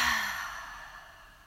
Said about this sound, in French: Une dernière fois, inspire par le nez et souffle par la bouche.